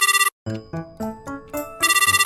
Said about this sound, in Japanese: こう携帯つながるんだった。よし、夏美に連絡してみようっと。